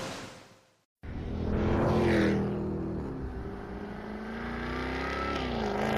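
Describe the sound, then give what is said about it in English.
A Jaguar F-Type R with a 575-horsepower supercharged V8 revs after a brief pause. The loud, raspy engine roar surges and climbs in pitch, then holds as a sustained growl. “What feeling do you get when you drive the 575 horsepower supercharged V8 Jaguar F Type R?”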